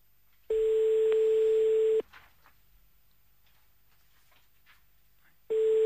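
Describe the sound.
A telephone ringback tone plays while a call is placed to Torny about a goat advert. A steady mid-pitched tone lasts about one and a half seconds, then a long gap with faint line hiss, then the tone starts again.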